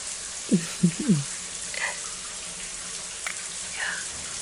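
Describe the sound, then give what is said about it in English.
A shower runs with a steady, even hiss of falling water. A few brief low voice sounds come early on, and the water continues alone. “I can't believe this is the first time we're showering together in the new place.”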